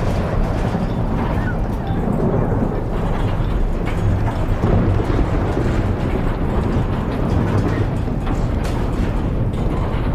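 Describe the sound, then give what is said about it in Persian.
A thunderstorm roars as a loud, steady wash of rumbling noise that stays at an even level the whole time, with no distinct breaks. “طوفانیه.”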